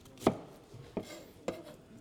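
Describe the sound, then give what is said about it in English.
Knife slicing through food, heard as three sharp, separate cuts spaced unevenly apart, each a crisp, fairly loud impact with no talk. “So I'm slicing.”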